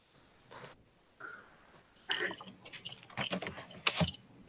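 A big pumping machine runs with irregular bursts of mechanical clanking, grinding and whirring gears, starting sparse and growing busier and louder toward the end.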